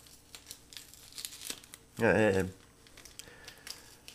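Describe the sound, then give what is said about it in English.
A pack of trading cards is ripped open in one brief, sharp tear with some crinkling of the wrapper. Lighter rustles come before and after it, and a person talks in the background. “Yes, still ripping open cards.”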